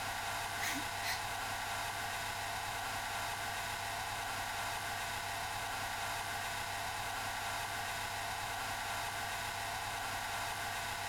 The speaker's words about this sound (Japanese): あのさ、人に髪乾かしてもらうのってさ、なんか気持ちよくない？あったかくなるっていうか、